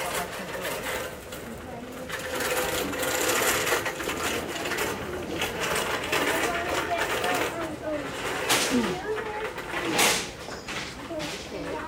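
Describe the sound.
A sewing machine runs in stretches with a mechanical whirring and clatter, heard under people talking throughout.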